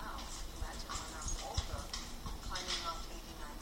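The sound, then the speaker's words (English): Footsteps climb stairs in a video game, a steady run of hollow, clopping steps, faint and even, under quiet talk. “You go up the stairs here by holding button down, and then when you release, she speaks.”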